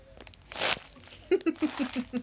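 Hard candy canes crunch and crinkle as a chin is pressed into a full bowl of them. A short, bright burst of crunching is followed by a quick string of a few louder pulses.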